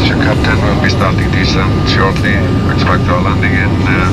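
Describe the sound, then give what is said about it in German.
An airliner's engines drone steadily as the plane begins its approach to land at Keflavik in Iceland. The constant roar runs loud beneath a person talking throughout. “wir setzen an zur Landung, na klar, in Island”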